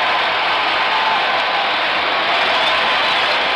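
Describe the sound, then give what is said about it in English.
A stadium crowd roars and applauds after a game-ending, record-setting strikeout in a World Series game between the Cardinals and the Tigers. It is a dense, loud, unbroken wash of cheering throughout. “The fans just stood and cheered you.”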